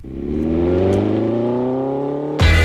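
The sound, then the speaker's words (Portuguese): An off-road buggy engine accelerating through mud and dust in Arouca gives a loud, steady droning hum that climbs slightly in pitch, then a sudden louder burst of harsh noise right at the end. “No limite TSF vamos a Arouca, acelerar na lama e no pó, andar aos saltos sobre rodas e lavar a vista. É o Buggy Experience organizado pela Naturway.”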